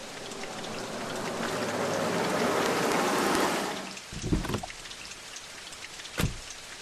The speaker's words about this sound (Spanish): mirando la lluvia disparar sus gotas contra el pavimento